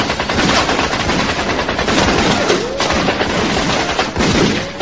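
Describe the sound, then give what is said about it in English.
Guns firing blanks on a film set during a staged action scene: dense, continuous automatic gunfire, loud and rattling throughout with no pauses. “these things are firing blanks”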